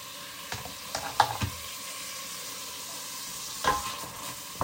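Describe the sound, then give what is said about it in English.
Onion and garlic frying in a pan, a soft, continuous sizzle broken by a few brief scraping stir noises near the start and again toward the end. “And you wait until the onion gets a little bit soft. And then you put the garlic, which looks really cool.”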